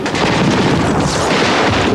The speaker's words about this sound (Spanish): Una granada estalla en la orilla.